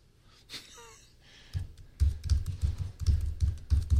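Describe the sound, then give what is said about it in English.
A password being typed on the keyboard of a less expensive Chromebook with an i5 processor: many quick, uneven key taps follow a quiet opening, with no talking. “You can look at me while I type in my password.”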